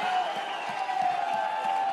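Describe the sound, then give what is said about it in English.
Congregation clapping hands and rejoicing during a church service, sustained clapping blended with crowd cheering and voices. “take 15 seconds, clap your hands and rejoice”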